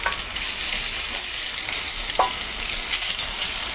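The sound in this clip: Garlic and ginger frying in a pan until slightly brown, a steady, bright sizzle with soft stirring scrapes running through it, and no voices.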